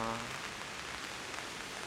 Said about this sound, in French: Et typiquement, là, on est dans une petite pluie